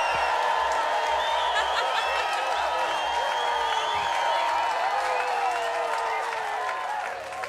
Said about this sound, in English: Thanks very much, and you are absolutely right. You can hear the audience here.